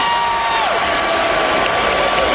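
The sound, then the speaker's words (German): A concert audience cheers at an Iron Maiden show on the Canadian side of Lake Ontario, a dense, loud roar of crowd noise with a sliding tone running through it. “Er sagt, wir sind hierher gekommen, indem wir den Lake Ontario überquert haben und das Publikum feiert.”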